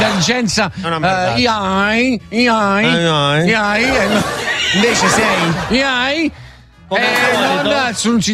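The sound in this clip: A person's voice imitates a horse neighing, loud warbling whinnies that quaver up and down in pitch, delivered in several long runs separated by brief pauses.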